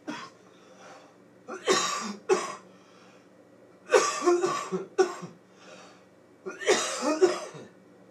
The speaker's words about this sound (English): there's a man coughing back there, and I don't appreciate it.